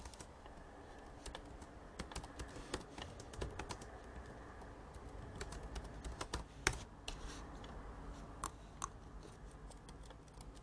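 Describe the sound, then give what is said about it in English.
Typing on a computer keyboard to write in a chat: a continuous, fairly faint run of many quick plastic key clicks with uneven rhythm and no talk. “So, right now, I'm just going to type in chat again.”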